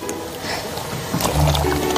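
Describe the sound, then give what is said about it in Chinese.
Water pours and splashes to rinse a freshly dug lotus root, a short wet trickling and sloshing that grows a little fuller toward the end, with no talk over it. “哎呀，倒倒水。”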